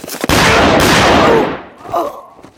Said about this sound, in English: He fired once, the bullet striking his challenger in the center of the chest.